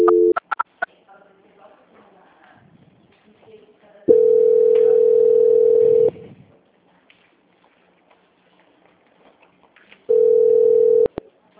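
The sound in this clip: Telephone tones during a call transfer: a few short beeps at the start, then two long, steady tones separated by a quieter stretch of faint background noise.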